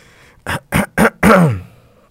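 A coughing fit of three short, sharp coughs in quick succession, then a longer, voiced, rasping cough that trails off, loud against near silence.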